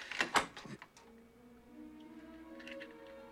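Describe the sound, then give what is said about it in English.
Door lock clicking open after being picked with a hairpin, a quick cluster of sharp metallic clicks at the start, followed by a faint, steady low hum. “He's taken by surprise when the door unlocks.”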